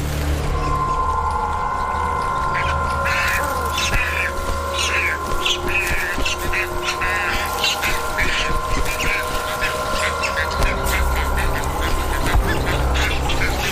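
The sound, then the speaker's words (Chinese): Nestling birds squabble in the nest, worst when parents return with food: many rapid, harsh chirps and squawks pile up over a steady background hum. “彩环雏鸟内斗不断，尤其是在父母带着食物回来的时候更为严重。”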